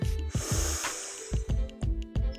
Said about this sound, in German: Dann nehmen wir doch erstmal einen Atemzug gemeinsam.